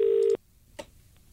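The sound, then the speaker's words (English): A telephone being dialed: a clear, steady tone lasts about a third of a second and then cuts off, followed by quiet and a single soft click; the whole is fairly faint. “Now, I've got his number. We'll dial him up and see what's up.”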